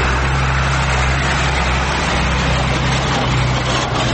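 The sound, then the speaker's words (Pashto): Road traffic on a bypass road in Kandahar, with large and small vehicles including heavy trucks, forms a steady, continuous roar over a deep, constant engine hum, without distinct pass-bys. “محمود ازادي راډیو ته وویل چې پر دغه سړک هر ورځ سلګونه لوی او کوچني موټر تیریږي”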